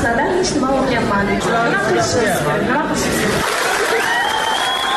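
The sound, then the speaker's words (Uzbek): Participants in an online video meeting clap in applause. A steady patter of hands runs beneath overlapping voices and chatter. “Video yig'inining boshqa ko'plab ishtirokchilari talaba qizning so'zlarini qarsak bilan qutlashgani aks etgan.”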